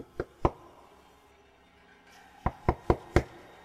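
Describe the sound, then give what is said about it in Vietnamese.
Knocking on a wall: two sharp raps, a pause, then four more in quick succession, crisp and distinct against a quiet background. “Lý Đạo có vẻ vô cùng khó hiểu, còn tiến lên ra sức đẩy vách tường, lại gõ xung quanh.”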